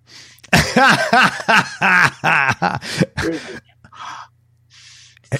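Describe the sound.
A voice imitates a sharp inhale, two breathy hissing intakes of air that follow a stretch of lively talk.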